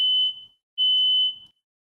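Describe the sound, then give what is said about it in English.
A smoke detector alarm going off: two long, piercing, high-pitched beeps of equal pitch, separated by a short silence, with nothing else audible. “Smoke detectors going off too.”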